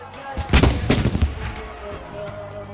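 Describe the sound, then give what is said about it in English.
Fireworks explode in the night sky at the start of a Bastille Day display. A few deep, booming bursts crack together near the start, then fade into a rumbling wash of noise. “They both raise their eyes to the fireworks exploding in the sky.”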